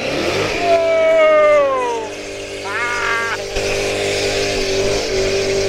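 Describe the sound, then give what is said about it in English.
A car does donuts, its engine revving hard while the tyres spin and burn rubber. A loud whining engine tone rises and falls in a few surges over a low rumble. “You burned about an inch of rubber off there. At least.”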